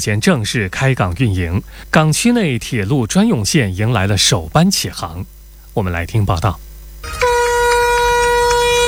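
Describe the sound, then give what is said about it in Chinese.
A freight train's horn sounds as a special train loaded with 290 cars departs from a rail port, a steady, loud, tonal blast of about two seconds that follows a stretch of speech. “上午8点15分，随着汽笛鸣响，首班满载290台领跑星能人汽车的专列从兰溪枢纽港出发，驶向广州国际港。”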